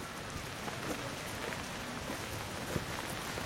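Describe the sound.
Rain falling outdoors, a faint, steady hiss of drops with a few scattered, slightly sharper patters throughout.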